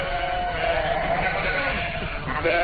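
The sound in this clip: Sheep bleat on a pasture, giving a few wavering, nasal calls of middling pitch that overlap across the short stretch of sound.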